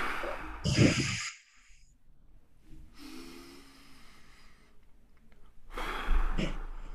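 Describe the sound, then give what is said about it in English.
Breathing-exercise power breaths: a deep breath drawn in, then air blown out hard through the mouth, heard as a few loud breathy bursts separated by quieter gaps, with no talk. “Breathe in, make two fists. Blow out as hard as you can and open your fists.”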